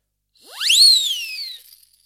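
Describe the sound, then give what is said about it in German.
A conductor's whistle signals a train's departure with one clear, shrill blast lasting about a second, sweeping quickly up in pitch and then gliding slowly down before fading, heard alone. “und der Zug fuhr los mit einer Kraft, und einer Pfeife vom Schaffner. Die signalisierte, jetzt fährt der Zug los.”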